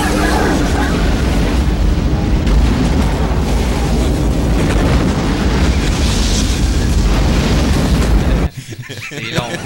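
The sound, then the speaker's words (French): An explosion sequence from a film: a loud, dense roar of blasts and rumble that goes on without a break for about eight seconds, then cuts off suddenly to a much quieter end. “une des choses que j'ai insisté pour qu'on montre, c'est l'explosion qui va suivre. Si tu peux faire rouler, mon cher Giz, c'est vraiment une de mes séquences préférées”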